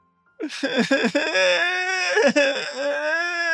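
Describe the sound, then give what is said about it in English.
A voice imitating a loud wail: a few sharp, sobbing bursts break into a sustained, high, wavering cry that holds loud and unbroken to the end, with no other sound. “I won't break the mic, but it's just like a loud wail.”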